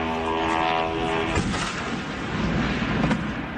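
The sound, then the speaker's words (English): Ukrainian drone strike on an oil refinery in southeast Moscow: a steady droning engine tone gives way to a broad, continuous rumble, broken by a couple of sharp bangs. “Well, that was the sound of an oil refinery in the southeast of the city being hit at a time when”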